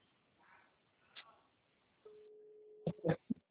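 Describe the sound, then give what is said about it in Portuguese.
Outgoing video call on a mobile phone: faint quiet background, then a steady low electronic tone begins midway and is followed by a few short, louder bursts near the end. “Deixa eu ligar pelo de vídeo.”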